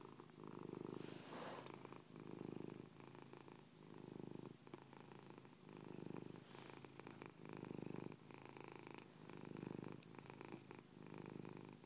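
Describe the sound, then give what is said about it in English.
Cat purring: a soft, faint, low rumbling purr that swells and eases in a long run of even, rhythmic breath cycles, with no other sound. “Good purr, baby.”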